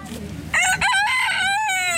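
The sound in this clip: A rooster crows on a farm: one long, loud, harmonic crow that begins abruptly after a short quiet stretch and holds, wavering slightly, to the end.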